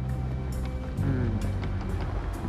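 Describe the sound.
Steady low engine rumble of a car driving across town at night, a continuous droning hum that holds level throughout with no distinct events and no talk.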